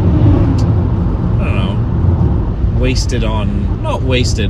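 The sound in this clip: Steady low road rumble inside a moving car, a dense constant drone with a person talking over it near the end.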